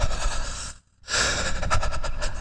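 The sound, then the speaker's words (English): A voice imitates creepy breathing: a long, raspy, hissing breath, a brief silent pause, then a second drawn-out rough breath that stays loud to the end. “I want a creepy breathe. That wasn't creepy. Creepy breathe would be, so, it'd be,”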